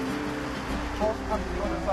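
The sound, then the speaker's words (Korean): A bus arrives with a low engine rumble that swells slightly, while people talk over it. “버스 오는 거 아니야? 네, 버스. 야, 버스 온다, 얘들아.”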